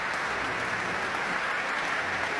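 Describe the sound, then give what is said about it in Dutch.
Concert audience applauding the conductor after an orchestral performance, a steady, even wash of many hands clapping that holds at the same level throughout. “En u hoort het applaus voor dirigent Tiani Lou.”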